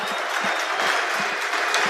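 A stadium crowd gives a football player a standing ovation at Arsenal's home ground during a match against Lille. The dense, steady applause and crowd noise stay loud and unbroken throughout.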